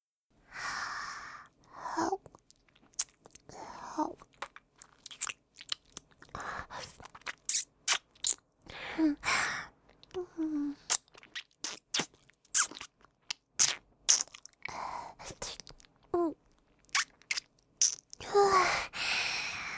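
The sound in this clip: Crunchy biting and chewing mouth sounds made close to a microphone, mimicking nibbling on a little finger: many short sharp crunches and clicks in an uneven rhythm, with soft breaths and sighs between them and no words.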